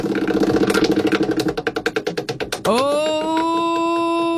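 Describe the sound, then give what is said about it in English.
Prize wheel being spun: rapid ratcheting clicks that gradually slow and space out, then a bright, sustained musical tone. “and I spin it, and whatever it lands on, I want you to give me a call”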